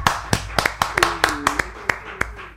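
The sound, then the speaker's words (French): Clapping from a church audience, a string of about eleven sharp, separate hand claps at an uneven, quick pace rather than a dense wash of applause. “Acclamons pour le nom du Seigneur Jésus.”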